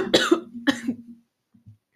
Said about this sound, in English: Excuse me. So I choked. Sorry, guys.